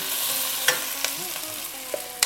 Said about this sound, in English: I add potatoes. It's just one potato. Okay, so we're just gonna saute our potatoes lightly.